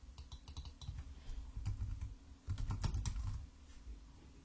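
Fingers type on a computer keyboard in quiet, rapid clicks that come in irregular bursts with short pauses, and no voices are heard.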